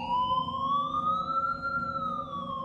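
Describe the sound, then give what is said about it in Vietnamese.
An ambulance siren wails near a hospital courtyard: a loud, sustained electronic tone that climbs slowly in pitch, then eases down slightly near the end, with no pauses and no voices. “Hồi còi xe cuối cùng cũng tắt, bầu không khí tĩnh lặng lập tức được khôi phục.”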